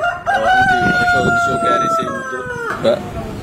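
A rooster crows amid chickens at a poultry centre in Jubbaland, one long sustained call that bends downward at the end, over a steady background of bird noise.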